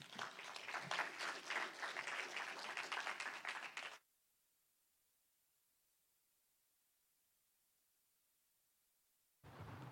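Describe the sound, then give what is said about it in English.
A church audience applauds to welcome a pastor with dense, lively clapping for about four seconds. It cuts off abruptly into near silence, and a short burst of noise returns at the very end. “Would you please welcome Pastor Ron Rust?”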